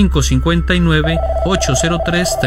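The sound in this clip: A telephone rings for an incoming caller, heard as a steady mid-pitched tone that begins partway through and holds to the end beneath a continuous voice.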